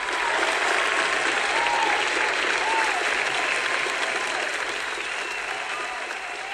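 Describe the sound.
Studio audience applause welcomes an actor guest onto a show: dense, steady clapping from a large crowd that holds loud throughout and eases slightly toward the end.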